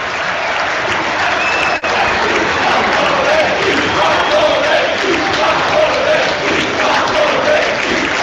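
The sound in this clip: Stadium applause and crowd noise from Cagliari supporters, a dense, steady roar that runs loud throughout with one very brief dropout early on.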